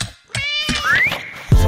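A cat meows once, short and tonal, its pitch rising through the middle of the call, followed by a brief soft thump at the end.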